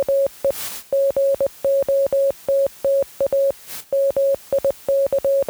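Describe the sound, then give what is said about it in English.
Morse code beeps from a Morse code generator: a steady mid-pitched tone keyed in many quick dits and longer dahs in an uneven rhythm, broken twice by short bursts of hiss. “Well, thank you, Morse code generator. What it said was, we got a mic.”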